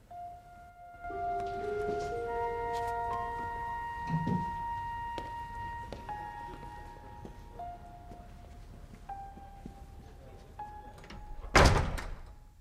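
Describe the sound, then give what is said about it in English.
A door opens onto an empty corridor, heard as a single sharp clunk near the end under sustained tonal music, after a soft thud earlier on. “A door opens and Richard comes out.”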